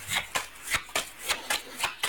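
Playing cards are shuffled in a run of quick, regular papery riffles, many short rasping bursts evenly spaced, moderately loud and alone.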